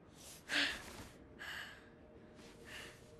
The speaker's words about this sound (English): He breathes deeply, then sits up.